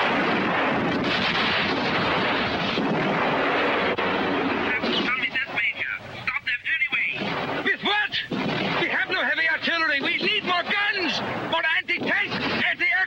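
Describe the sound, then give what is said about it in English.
Artillery fire sound effect in a radio drama about the 8th Army and General Patton's forces fighting the Nazis. A dense, continuous booming roar fills the first five seconds, then a man speaks over the fire as it keeps rumbling. “The enemy has been increasing his firepower for the last hour.”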